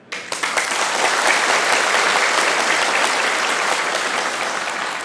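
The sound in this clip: Applause from the audience at a Buddhist dharma talk: dense, steady clapping that rises quickly at the start, holds loud and even throughout, and eases slightly toward the end.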